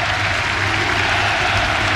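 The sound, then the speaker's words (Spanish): A stadium crowd applauds during a minute of silence before a Chilean football match. The soft, steady wash of clapping is even and unbroken, with no individual claps standing out. “Y es un minuto con aplauso por lo que vemos ahí del hincha de Unión La Calera.”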